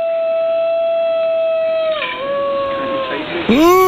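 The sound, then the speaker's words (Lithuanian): A New Guinea singing dog howls mournfully, a long sustained tonal wail rich in harmonics that holds a steady pitch, then dips briefly and dips sharply again near the end. “Čia buvo įrodymas, kad toks yra gvinėjas dainuojantis šuo. Aš žiūriu, nei pribūdos pririštas, kunos, nei narve, o jis taip liūdnai dainuoja.”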